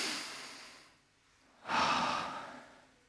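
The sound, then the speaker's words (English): A deep breath taken by a church audience during a sermon. It is faint overall: a soft breathy sound tapers off, then after a brief lull a fuller, airy breath rises and slowly fades, with no talking. “And just take a deep breath.”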